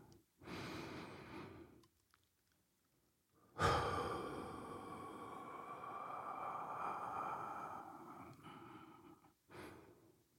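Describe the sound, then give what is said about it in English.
One deep, slow breath: a soft inhale lasting about a second, a short pause, then a long, faint, breathy exhale stretching over several seconds, with a brief breath at the end. “And now, if you're ready, let's take a deep breath.”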